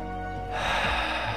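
A person inhales audibly through a tensed mouth, showing an overly controlled breath: after a brief quiet moment, one steady, airy intake swells up and holds fairly loud to the end, with no talking.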